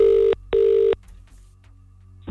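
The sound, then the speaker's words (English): A telephone rings with two loud, evenly spaced bursts of a buzzing electronic tone, each lasting under half a second, followed by near silence with faint background noise. “There's a particular way you must answer the phone if this is your phone ringing right now.”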